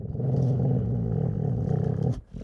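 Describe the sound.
A wolf's low, rumbling growl, a deep continuous snarl lasting about two seconds before breaking off.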